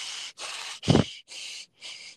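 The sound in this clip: A voice imitates hard, angry breathing: five quick, forceful huffs in a steady rhythm, the middle one carrying a deep, rough grunt.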